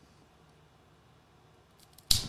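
A single crisp snip cuts the end off a cigar, sharp and sudden after a near-silent pause.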